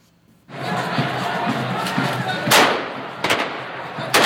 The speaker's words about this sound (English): Hundreds of young men fire machine guns into the air as their comrades carry the coffin of a dead boy into Baghdad's Abu Hanifa Mosque.